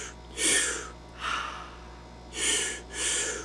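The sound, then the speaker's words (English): Breathing-exercise breaths: two active inhales followed by a passive exhale through the mouth. Four airy, rushing breath sounds fall roughly in pairs, without talk. “So two active inhales and a passive exhale. That is the technique.”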